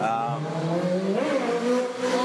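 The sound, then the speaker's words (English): A motorbike engine revs hard as the rider pulls a wheelie up a street in Budapest. The loud, harmonic engine note climbs in pitch partway through and stays strong to the end. “He's done a nice wheelie up the street.”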